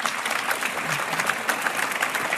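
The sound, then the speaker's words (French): An audience gives warm applause at a live face-to-face debate event in Saint-Brieuc, a steady, full clapping that stays even throughout without voices. “qu'on peut applaudir à nouveau chaleureusement.”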